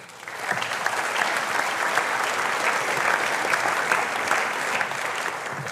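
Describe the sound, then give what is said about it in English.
Steady applause from an audience welcoming a speaker back to the stage, dense and loud throughout almost six seconds without pause. “I want to invite you to put your hands together now and welcome back Dr. Ross Grant.”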